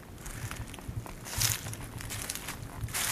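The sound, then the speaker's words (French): Footsteps crunching through a carpet of dead beech leaves in a beech wood on the north slope of a wide ridge, a soft, steady rustle of crackling steps, a little louder midway. “le tapis de feuilles mortes, c'est un son particulièrement soyeux et agréable à vos oreilles.”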